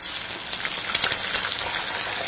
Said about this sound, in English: Like your turkey deep fried?